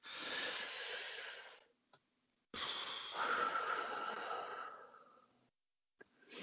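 Deep, drawn-out breathing: two long, airy breath sounds separated by a short pause, the second stretching about three seconds before trailing off, with no talk.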